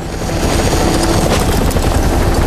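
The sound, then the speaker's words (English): Helicopter lowering a search and rescue team into a forest: a loud, steady rotor and engine roar with dense, constant noise throughout. “A search and rescue team are lowered into the forest from a helicopter.”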